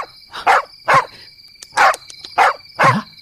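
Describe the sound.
A puppy barks five times in short, evenly spaced yaps over a steady high-pitched tone in the background.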